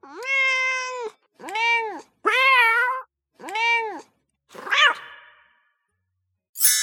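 Cats meow in a video game: five drawn-out, harmonic meows in quick succession, each arching up and down in pitch, then a brief noisy burst at the very end.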